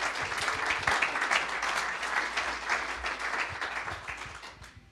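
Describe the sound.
Applause from a church audience welcoming a speaker, dense steady clapping from many hands that gradually thins and fades toward the end.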